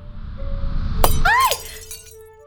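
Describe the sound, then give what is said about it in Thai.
Light bulbs shattering: a sharp glassy crash, then quick swooping ringing tones that fade into a soft tail. “ฉันดีใจเลยลืมควบคุมพลังตัวเองนะหลอดไฟแตกกระจายหมดเลย”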